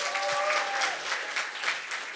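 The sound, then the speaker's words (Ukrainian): Audience applause at a live season-finale show: dense, continuous clapping from many hands, a steady rushing patter that stays fairly even and loud through the brief clip. “Оплески”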